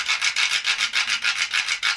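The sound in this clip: A stick scrapes rapidly across the teeth of a quijada, a Peruvian donkey-jawbone instrument, making a dry, bright rasp in many even, rhythmic strokes at a steady, fairly loud level.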